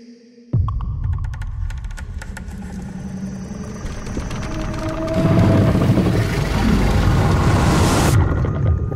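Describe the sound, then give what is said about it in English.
Trailer audio for Scott Cooper's film Antlers (2021): a sudden loud boom opens into a deep throbbing, humming drone that swells heavier midway, with a bright high wash before it cuts off. No voices are heard. “That was the trailer for Scott Cooper's Antlers. Good trailer.”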